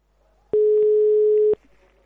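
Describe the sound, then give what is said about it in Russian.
Telephone ringback tone as an outgoing call is placed: a single loud beep holds one steady mid pitch for about a second, framed by quiet line hiss before and after. “Итак, звоним Пете номер 2.”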